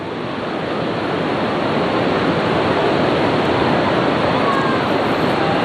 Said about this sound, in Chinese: 眼前的这一条银链啊，它把钱塘江一分为二。我们看到潮水逐渐接近我们老盐仓的大坝了。